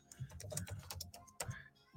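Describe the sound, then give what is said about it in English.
Typing on a computer keyboard: many quick, faint keystroke clicks in an uneven run, a brief pause, then a few more taps. No one speaks. “Let me just type this for, for my Instagram followers”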